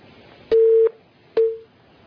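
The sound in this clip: Telephone busy tone after a call disconnects: two loud, steady, mid-pitched beeps separated by a short gap. The second beep is shorter and fades out.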